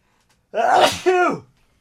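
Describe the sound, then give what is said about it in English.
A single sneeze bursts out in two quick, loud parts: a sharp breathy rush followed by a shorter voiced burst, with silence on either side. “I gotta sneeze.”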